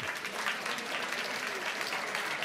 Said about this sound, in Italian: Siccome non ce li fanno mai gli applausi, anche di solito becco solo sms critici, me ne fate un altro che mi sta piacendo.